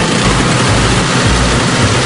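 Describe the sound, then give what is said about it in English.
A new snow blower runs while clearing a small driveway and sidewalk, giving off a loud, steady engine roar with a heavy low rumble and no voices. “How about this new snow blower plus super fast ice melt for the sidewalk?”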